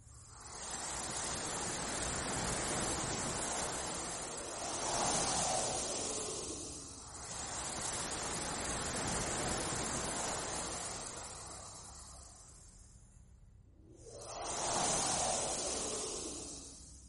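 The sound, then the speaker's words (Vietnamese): Wind blowing heard through a phone line during a silent call: a dense, steady rushing hiss that rises in two slow swells. No voices. “Từ trong điện thoại phát ra âm thanh giống như tiếng gió thổi.”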